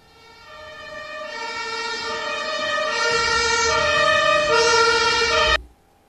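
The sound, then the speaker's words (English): A German ambulance siren with a loud, rich harmonic tone that swells in level and then cuts off abruptly near the end. “German ambulance.”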